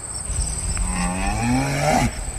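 A cow moos on a neighbouring pasture where brown-and-white spotted cattle graze: one low, drawn-out, tonal moo that swells in the middle, heard alone without talk.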